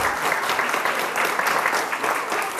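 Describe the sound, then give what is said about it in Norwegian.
An audience applauds after children sang hit songs, a steady, crackling wash of many hands clapping that stays fairly even for nearly three seconds. “Ungene sang den ene hitten etter den andre, om vi skal tro responsen fra publikum.”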